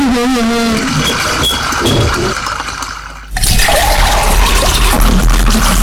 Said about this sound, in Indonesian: Ngomong sama air ya, lebih bagus kalau kerannya itu ditutup. Kan airnya jadi terbang percuma.